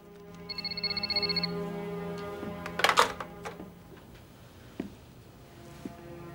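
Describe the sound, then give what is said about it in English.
A telephone rings in one short, bright electronic trill, followed by a sharp clatter and a few faint bumps. “Her own phone begins to ring.”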